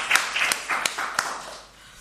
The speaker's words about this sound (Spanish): Aunque no se aplaude la rueda de prensa, vamos a aplaudir.